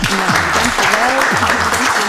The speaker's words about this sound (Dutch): Mag ik applaus voor Marleen van den Hout.